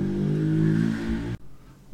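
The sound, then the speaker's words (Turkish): A motorbike passes close by, a loud, revving engine drone with steady harmonics for just over a second before the sound cuts off abruptly into quiet. “Rabbim motor içimizden geçti ya.”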